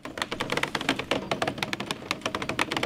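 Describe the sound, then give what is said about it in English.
Rapid, rhythmic clicking as construction workers in the woods unspool several hundred feet of fiber optic cable, many sharp, evenly spaced ticks at a moderate level with no pause. “That's the sound of construction workers unspooling several hundred feet of fiber optic cable.”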